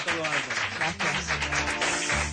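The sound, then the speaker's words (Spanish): A studio audience applauds a guest as a show closes: brisk, dense clapping that carries on throughout, with voices over it. “Un aplauso para Nuria, así nos vamos.”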